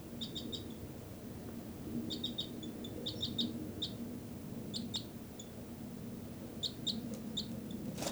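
High, short bird call notes come in a few irregular clusters of quick chips, faint over a low steady background hiss, with no voices.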